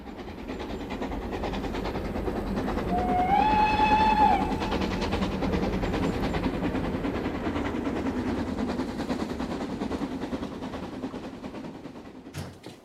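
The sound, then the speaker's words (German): A train crossing a border rolls on with a steady, loud rumble and clatter. A single whistle blast sounds early on, while the rolling noise carries on unbroken to the end. “der Zug muss sofort gestoppt werden. Was muss er? Das geht nicht mehr. Er passiert eben die Grenze.”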